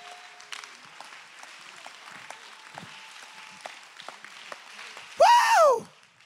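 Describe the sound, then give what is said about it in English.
A church audience claps hands in praise, faint scattered clapping running under quiet talk, then a brief loud falling tone bursts out near the end. “Clap your hands and give God the praise.”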